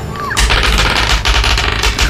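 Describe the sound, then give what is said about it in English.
Cannon fire sound effect played during a tabletop role-playing game, a loud, sustained run of heavy booming blasts that follow each other rapidly with no pause. “Fire the cannon.”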